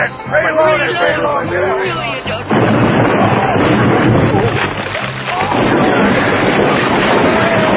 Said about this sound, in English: All I'm going to do is fire a warning shot right across the bow.